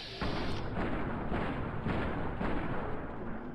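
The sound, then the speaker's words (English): Pistol fire from a .45 in a video game, aimed at a robot scorpion enemy: a loud, dense wall of blasts that blur together with a few sharper cracks, no speech. “I can shoot five shots from my 45 with one VAT cycle.”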